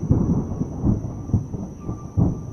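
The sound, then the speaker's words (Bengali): Thunder rumbles outside in low, rolling pulses that swell and fade over and over, with a faint steady high tone running above them. “বাইরে মেঘের গর্জন শোনা যাচ্ছে”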